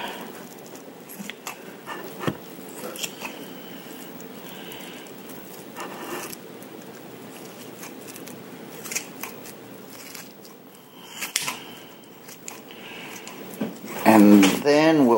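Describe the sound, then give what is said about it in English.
A knife slices raw meat into strips for stew, producing a steady run of soft crunching, scraping cuts with scattered sharper clicks over about fifteen seconds and a louder burst at the very end. “Almost have a strip cut, so you can tell it takes a little while. I'm being very careful.”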